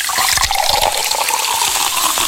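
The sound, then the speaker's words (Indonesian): Coconut milk pours into hot oil with fragrant ground spice paste while cooking, giving a steady, fairly loud watery rush and splash that continues throughout. “Ya, tuangkan santannya, toh.”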